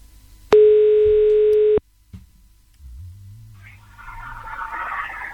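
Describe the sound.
A single steady telephone tone, about a second long, rings out on a call to the listener of the day at a Hungarian FM radio station, followed by a quieter low hum and soft hiss.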